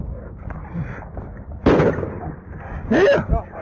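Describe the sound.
Gunfire in a played-back police video recording: two sharp, loud bangs separated by about a second stand out above a low background of murmuring voices.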